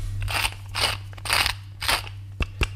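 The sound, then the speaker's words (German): Whisky pepper is ground in a pepper mill while a salad is prepared: four crunchy, gritty grinding bursts in a steady rhythm, then two short clicks of the mill, with no talk. “Wir haben 4 Pfeffermühlen und ich weiß immer nicht, welcher Pfeffer wo drin ist. Das hier ist jetzt ein sogenannter Whisky-Pfeffer.”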